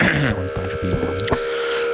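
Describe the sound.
Spring reverb feedback in a synthesizer soundscape built with VCAs and envelopes: sustained ringing tones held over pulsing, stuttering low harmonic bursts, with a sharp click near the end before the low pulses fade.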